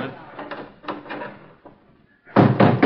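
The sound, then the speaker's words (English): Door being shut in a radio drama: voices talk first, then a loud, heavy thud of the door closing near the end. “Now, quick, Charlie. Shut the door.”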